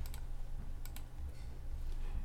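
Mouse clicks on a computer, two quick double clicks, sharp but faint, over a steady low hum.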